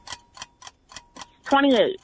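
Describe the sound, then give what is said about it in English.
Countdown timer on a quiz game ticking in a sharp, even run of about six ticks at a brisk pace, then a louder wavering tonal sound cuts in near the end. “Here's the timer.”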